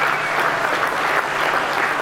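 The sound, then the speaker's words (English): Crowds on the banks of the Brisbane River burst into dense, continuous clapping and cheering after Brisbane is named host of the 2032 Olympics, holding a steady, energetic level throughout. “Crowds of green and gold erupted on the banks of the Brisbane River as history was made.”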